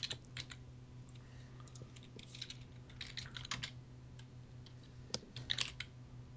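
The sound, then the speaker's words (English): Typing on a computer keyboard: scattered, soft key clicks in uneven bursts over a steady low hum, with a few sharper taps near the end. “I have to type in the periods.”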